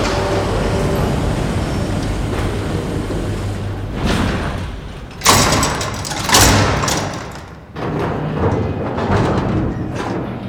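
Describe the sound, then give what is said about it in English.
A sub-berth airlock opens with a heavy mechanical rumble, broken by a few sharp bursts of hissing air and dull thuds. “Confirm opening of sub-berth airlock. Confirmed. Opening of sub-berth airlock.”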